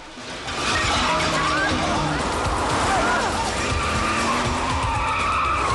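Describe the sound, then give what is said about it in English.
A 4x4 skids loudly with squealing tires and crashes through glass doors into a street store, then speeds on. The noise is a dense, unbroken roar that holds at a steady level throughout. “The car crashes through glass doors, skids into a store in the street, and speeds on.”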